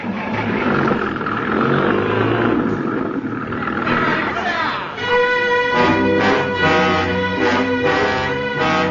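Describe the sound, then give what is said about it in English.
A truck engine starts and revs, a loud, sustained roar that settles into a steadier droning tone in the second half. “Boys, there's a truck. That's what we need. Stop the engine. Stop the engine. But Clayton. We'll come back for him. Start it. Start it.”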